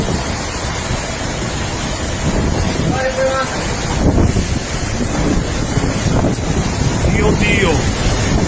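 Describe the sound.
Strong wind roars across the microphone as waves churn around a boat. The loud, continuous rush of gusts and water stays steady throughout.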